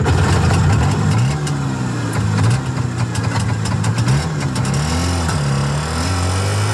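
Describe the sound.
The engine of a Velorex, a small vehicle with a leatherette body, runs steadily at idle. It is a loud, low, continuous hum whose pitch wavers slightly up and down, with no voices.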